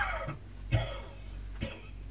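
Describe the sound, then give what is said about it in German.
Three short, faint coughs, unevenly spaced, over a low steady background hum. “Nehmen Sie sich ein wenig in Acht. Sie husten mir das ganze Gesicht voll Sand.”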